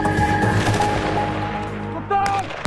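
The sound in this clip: Gunfire during Dutch Defence military training, heard as dense, continuous loud shooting with overlapping reports and a sustained rumbling, hard texture throughout.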